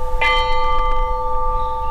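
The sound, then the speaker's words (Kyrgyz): A peace bell is struck once at a memorial ceremony in Osh, giving a bright metallic clang followed by a long, steady ringing hum that lingers to the end. “Андан кийин ынтымактын символу катары тынчтык коңгуроосу кагылды.”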